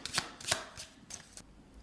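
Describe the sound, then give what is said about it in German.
A deck of task cards is shuffled vigorously in a few quick, crisp rustling bursts, fairly soft and without talk. “Genau, jetzt wird hier noch einmal kräftig gemischt.”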